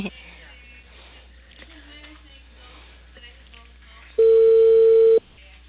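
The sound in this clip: Telephone ringback tone as a call is placed to a cable company. Quiet voice-like sound comes first, then a single loud, even ring of about one second that stops abruptly.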